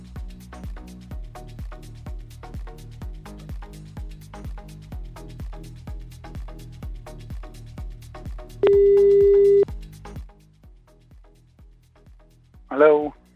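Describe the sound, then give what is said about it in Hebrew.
Telephone tones while a call is dialed: a long run of rapid, regular clicks, then one steady tone held for about a second, and after a pause a brief ring-like burst. “בואו נחייג.”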